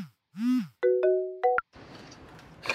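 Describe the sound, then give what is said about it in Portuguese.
Mobile phone ringtone: a short swooping electronic tone followed by a few stepped beeps, clear and loud, then giving way to a noisy background. “No dia 2 de setembro de 2021, K atendeu uma ligação no celular.”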